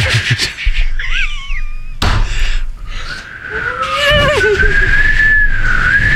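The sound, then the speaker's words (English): A person half-whistles to imitate wind through a poorly sealed hallway duct. Airy, wavering tones glide up and down and grow loud, broken by a sharp thump partway through. “It's a half whistle. But it was getting really loud”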